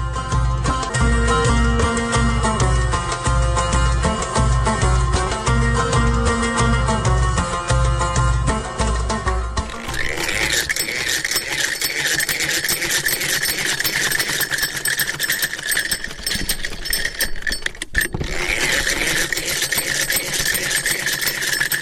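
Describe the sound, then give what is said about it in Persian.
A home sewing machine stitching while a tailor sews women's clothing, curtains and cushions: a fast, steady mechanical whir and clatter runs continuously, turning brighter and more rattling partway through, with one brief break near the end. “خب خودت قسمی که دیدیم مصروف خیاطی هستی، چی چیزا میدوزی، از کجا یاد گرفتی خیاطی را؟”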